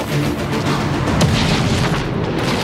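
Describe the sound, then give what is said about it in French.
A power plant explosion as a loud, continuous boom: a dense, rumbling roar stays steady and powerful through the whole clip with no pauses. No voices. “La centrale va exploser, papa.”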